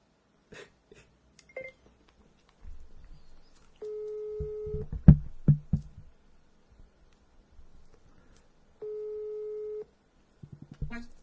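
A phone ringback tone sounds as two long, steady mid-pitched beeps separated by a pause, with scattered knocks and rustling in between.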